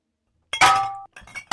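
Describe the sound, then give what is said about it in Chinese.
A glass shochu bottle clatters and rolls down the outdoor stairs of a shop, giving a few sharp, ringing clinks. The first clink rings on briefly before the next knocks follow. “当当当，一个烧酒瓶子从眼前店的悬梯上碰撞着滚下来，滚到了我的脚下”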